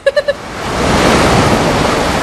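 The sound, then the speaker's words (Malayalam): A big ocean wave crashes on a beach in Goa. Three short, bright tones sound at the start, then a loud, broad rushing wash swells up and holds steady to the end. “നീ നോക്കിയേ, ഒരു ഉഗ്രൻ തിര അടിച്ചു കയറി വരുന്നുണ്ട്.”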